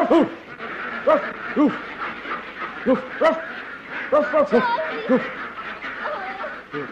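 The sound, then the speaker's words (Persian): A grown man kneeling on the floor imitating a dog with his voice: many short, throaty woof-like barks in an uneven, bouncing rhythm, some in quick pairs, loud and clear. “یه مرد بالغ با دکترای حقوق باید زانو بزنه رو زمین مثل سگ پارس کنه تا اردکی که تخم طلایی میذاره پیدا کنه”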